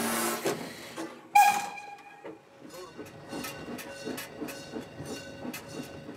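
A steam locomotive hisses while a trainee stoker fires it up. Two loud bursts of steam come early, then a regular run of softer rhythmic pulses.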